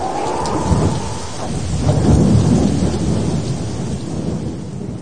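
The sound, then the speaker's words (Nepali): Thunder rolls over heavy rain during a storm: a loud, continuous low rumble that swells through the middle and eases toward the end, with the dense hiss of rain throughout. “जब पानी पर्यो र बाढी आयो, अनि हुरी चल्यो र त्यस घरमाथि बजारियो”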